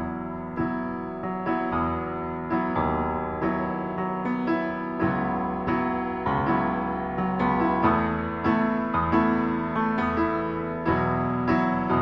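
Piano plays a song's accompaniment in steady repeated chords, the right hand holding three clashing notes that never resolve, each strike decaying before the next in an even rhythm, moderately soft with no voices.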